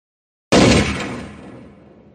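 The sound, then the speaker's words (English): A single handgun shot fired in the mountains: a sudden loud crack after a moment of silence, with a long echo that slowly fades away. “The shot was louder than I expected, and echoed through the mountains for almost 3 seconds.”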